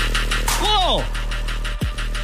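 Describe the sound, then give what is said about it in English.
Truck engines drone as two trucks race over the top of a tall hill on sand dunes. A steady low throbbing runs throughout, broken by swooping sounds that fall sharply in pitch. “It's two trucks going over Tall Hill. It's two trucks going over the top of Tall Hill. It's two trucks on sand dunes racing.”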